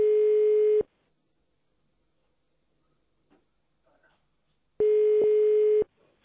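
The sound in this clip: Telephone line tones sound after three is pressed on a company's phone menu to reach accounting: two steady mid-pitched tones, one just under and one just over a second long, separated by roughly four seconds of near silence.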